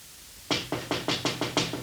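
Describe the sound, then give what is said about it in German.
Seven sharp knocks on a window in quick, even succession, fairly loud and crisp, with no voices around them. “Es klopft ans Fenster. Es ist wer draußen.”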